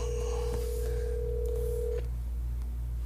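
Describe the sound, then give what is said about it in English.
A telephone call being dialed and ringing on the line: a steady, fairly low tone holds for about two seconds, then stops, with faint clicks and a low hum underneath, all quiet. “Dial him up.”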